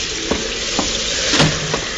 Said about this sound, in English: This time it was night and rain, and the sounds of desolation that only the wind and the sea can shape.